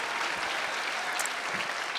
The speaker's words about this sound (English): May I have a round of applause for Jim?